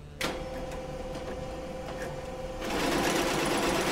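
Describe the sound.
A sewing machine stitches clothes in an alterations tailoring shop in Buenos Aires, whirring steadily after a sharp start and growing louder and busier partway through.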